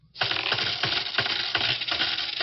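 Seven cents' worth of coins drop in a rapid, uneven series of bright metallic clinks and jingles, loud and alone, without talk.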